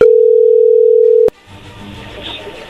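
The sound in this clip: A steady, loud telephone dial tone holds one unbroken mid-pitched note while a call is being placed, then cuts off abruptly and leaves only faint low rustling noise.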